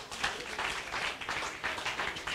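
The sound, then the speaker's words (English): A church audience claps their hands together in a service, making sustained, dense applause with a steady texture and gentle surges in loudness throughout. “Give the Lord a clap of hands.”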